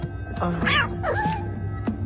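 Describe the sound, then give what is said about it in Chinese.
Cats meowing, with a couple of drawn-out, wavering meows rising and falling in pitch over a steady low background hum. “你为什么养这么多猫啊？”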